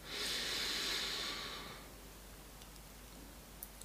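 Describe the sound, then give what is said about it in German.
A single deep inhale during a guided relaxation, a soft airy hiss that swells quickly, holds for about a second and a half, then fades out into near silence. “Atme ein.”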